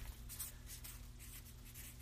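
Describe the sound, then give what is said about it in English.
A marker drawing a dotted line on a board: a series of short, soft, scratchy dabs in a quick, fairly even rhythm. “I'm going to add another thing to totally throw us for a loop. I'm going to add a dotted line.”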